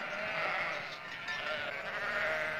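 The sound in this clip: A flock of sheep bleats in the hills near Bethlehem, many overlapping calls forming a dense, continuous chorus at a steady, fairly soft level with no talking.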